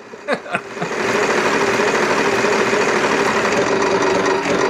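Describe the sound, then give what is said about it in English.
A prize wheel spins in a word-puzzle guessing game, starting with a couple of short clicks before settling into a loud, steady whirring rattle that runs unbroken to the end. “I think we got, you know, the wheel of death. What's a movie? What's a TV show? Who knows? Who cares? I guess that's our answer. Let's spin the wheel.”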